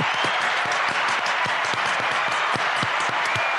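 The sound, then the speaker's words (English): A quick round of group clapping in appreciation of health workers. Dense, even applause runs steadily through the whole clip, loud and continuous with no break. “because it's Thursday afternoon, we can't do it at 8 o'clock, so let's have a quick clap now.”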